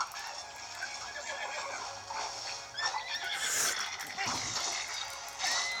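A horse neighs loudly in a shrill, wavering whinny over a noisy background.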